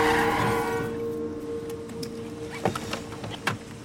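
A car reverses across a lawn and skids to a stop, nearly hitting a black dog. A low engine hum fades early, then two short, sharp scraping bursts land near the end.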